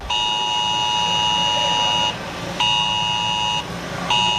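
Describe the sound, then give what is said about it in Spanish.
Emergency alert sounding in Alcuéscar during a forest fire drill, a loud steady high-pitched tone with bright harmonics held for about two seconds, then repeated in shorter blasts with brief breaks over a noisy background. “Suena esa alerta en Alcuéscar.”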